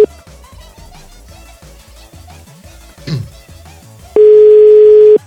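A telephone dial tone sounds while a number is dialed: one loud, steady, mid-pitched tone lasting about a second near the end, after a stretch of faint background murmur.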